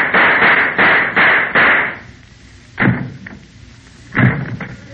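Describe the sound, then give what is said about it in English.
Gunshot sound effects in a radio comedy sketch: a quick, even run of loud bangs, then two separate shots spaced apart with quiet between them. “Oh, for heaven's sakes, there goes our sketch. What happened? The two sound effects men shot each other.”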